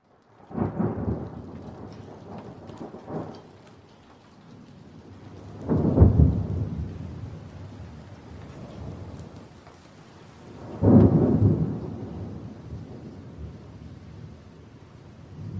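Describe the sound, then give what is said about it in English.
Thunder rumbles through a hurricane thunderstorm over steady, heavy pelting rain. Several low rolling peals swell and fade, three of them strongest, above a continuous wash of downpour. “Dark skies flash with blue-green lightning in the howling winds and pelting rains of”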